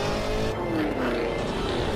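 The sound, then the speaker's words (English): A Cadillac Escalade's supercharged 6.2-liter V8 engine revving hard through the gears: a continuous loud roar whose tone slides downward partway through. “While Cadillac didn't share many details, it does sound pretty good ripping through the gears”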